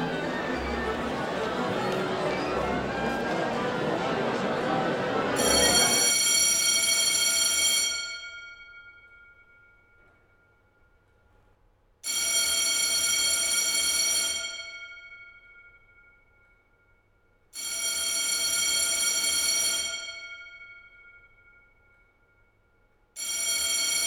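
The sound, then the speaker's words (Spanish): An alarm clock rings in long, bright, buzzing bursts with silent gaps between them, after a stretch of dense, noisy sound at the start. “Despierto y recuerdo que tengo que apagar esa alarma los sábados.”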